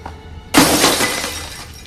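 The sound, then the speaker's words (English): A shoe smashing a key box: one sudden, sharp crash with a shattering, breaking quality that stays loud and then fades over about a second. “She uses her shoe to smash the box, which Ashley never reached, and she takes that key too.”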